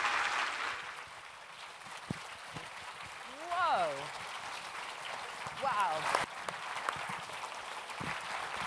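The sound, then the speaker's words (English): An Edinburgh Book Festival audience applauds to welcome an author, a steady rain-like patter of many clapping hands. Two brief voiced calls rise above it. “please put your hands together and give a great big Edinburgh Book Festival welcome to our wonderful author, Francesca Simon.”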